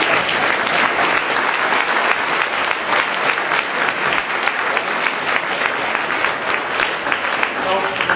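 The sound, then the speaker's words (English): Sustained audience applause for two speakers at a lecture event, a loud, even clatter of many hands clapping that continues without a break for the whole stretch. “Can we get a round of applause for Peter and for Dan?”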